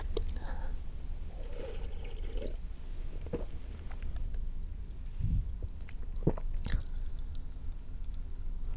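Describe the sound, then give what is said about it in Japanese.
A carbonated drink fizzes faintly in an open mouth as a soft, steady crackling hiss, with a few wet clicks and squishy mouth sounds. “口開けると炭酸のシュワシュワって音が入るね。”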